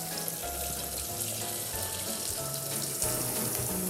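Oil bubbling and sizzling in a pot of hot frying oil held near frying temperature, a steady dense crackle and hiss at even loudness throughout, with no talking.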